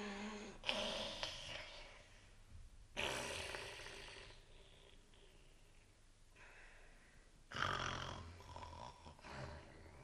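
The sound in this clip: Quiet snoring from a character falling asleep in a spoken fairy-tale story: a few rough, breathy snores spaced several seconds apart over a soft musical background.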